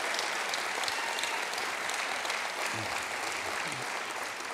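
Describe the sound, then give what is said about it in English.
The River Valley Church audience claps for its pastors in a dense, even burst of applause that holds throughout. “Can you make some noise this morning for your pastors?”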